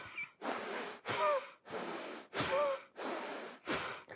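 A yoga power-breath class practises forceful breathing: six strong, hissing breaths alternate in and out in a steady, vigorous rhythm, each one a broad rush of air, all fairly faint.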